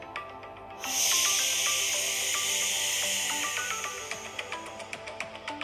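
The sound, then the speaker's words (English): A long, airy exhaling breath during a guided breathing exercise. It starts abruptly as a loud, broad hiss, then slowly thins and fades over several seconds with no talk. “Keep it going. Good. And exhaling now.”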